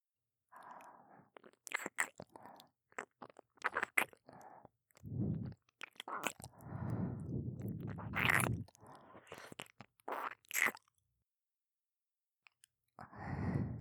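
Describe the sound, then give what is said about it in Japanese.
Ear-licking mouth sounds: quiet wet licks, smacks and slurps come in many irregular bursts separated by short silent pauses, with no talking. “では、耳舐めの方、させていただきますね”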